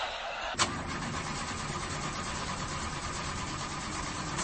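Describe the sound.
A car engine cranks without catching, on a car with a suspected clutch plate fault: a sharp knock near the start, then a steady, loud mechanical whirring rumble that holds unchanged for about four seconds, with no talk.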